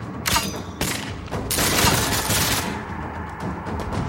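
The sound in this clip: Rapid gunfire from an advancing enemy fighting at a continuous rate of fire, coming in several dense bursts that merge into a longer sustained stretch, loud against a constant noisy background.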